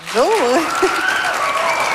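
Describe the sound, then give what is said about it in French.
An audience applauding a guest on a talk show, a dense burst of clapping with a voice calling out over it at the start. “On l'applaudit?”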